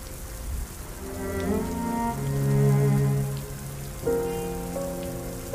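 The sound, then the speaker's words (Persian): Steady rain falling, a soft continuous hiss that stays even throughout, with gentle sustained musical tones layered over it. “اسماعیل پیاده زیر بارون میره.”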